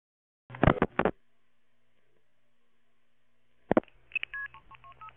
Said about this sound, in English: Please dial 1088 to join the conversation.